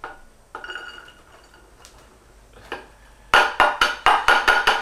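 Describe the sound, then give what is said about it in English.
Chopped onion goes into a saucepan: soft scraping and a few faint knocks, then a rapid run of bright metallic clinks against the pan. “Okay, so we're gonna put all this onion into another saucepan here.”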